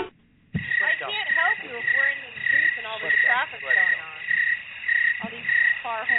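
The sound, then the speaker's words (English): Cricket chirping runs steadily throughout, a regular pulsing chirp that repeats without a break beneath a person talking continuously. “We're getting a cricket signal.”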